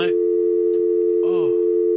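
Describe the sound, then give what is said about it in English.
A telephone line tone sounds after a call drops mid-conversation, a steady unbroken pitch that runs throughout, with short bursts of voice breaking over it at the start and again midway. “whenever your phone drops in the middle of a prank call”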